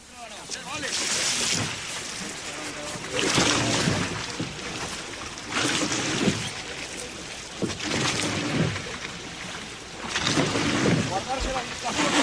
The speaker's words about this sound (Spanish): Es el sonido de las regatas desde dentro, desde la propia trainera